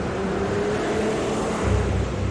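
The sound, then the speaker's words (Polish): A heavy truck driving close by, heard as a steady, broad engine drone with a low rumble that swells slightly toward the end. “Po chwili tuż obok niej przejechał samochód ciężarowy”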